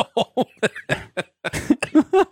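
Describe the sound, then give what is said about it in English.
Coughing from someone still recovering from COVID, a rapid string of short, rough bursts that turn throatier and more voiced toward the end. “I apologize for my coughing.”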